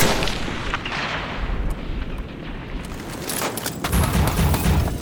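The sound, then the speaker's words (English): A sniper rifle shot aimed at a target in a tower cracks within a dense, continuous din of battle booms and rumbling. Several sharp reports stand out over the steady roar, with no voices. “Tango sighted in the tower, taking the shot. Tango down.”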